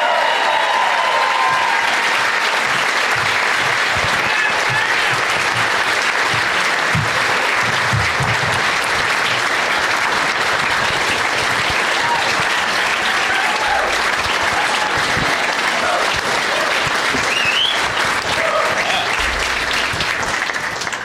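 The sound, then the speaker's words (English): Audience applause welcoming three guests onto a stage, a loud, sustained roar of clapping from many hands that stays even from start to finish. “Please give a big warm welcome to Brian Malow, Sam Morril, and Trey Galyon.”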